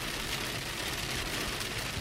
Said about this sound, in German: Weil es hagelt gerade sehr doll.